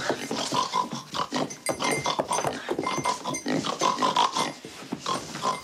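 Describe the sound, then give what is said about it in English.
A woman's voice imitates a pig's oink as a pig follows her out of a room: many quick nasal snorts and grunts in a steady, choppy rhythm, fairly loud and continuous, with no talk. “as they're walking out of the room and the pig is following her, she's making the pig sound to James Caan.”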